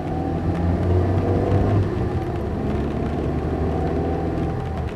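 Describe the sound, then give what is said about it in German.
Car engine running hard as the driver floors it, a loud, even low rumble that swells slightly early on and then holds steady. “Gib Gas!”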